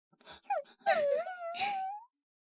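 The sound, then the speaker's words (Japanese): A voice fakes crying with a wavering, wailing sob in a few uneven bursts, ending on a long rising whine against silence. “嘘泣きですね。 嘘泣きね。”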